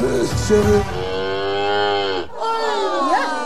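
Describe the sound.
A cow moos twice, each call a long, loud, low lowing drone. The second call ends in a strained, wavering rise in pitch.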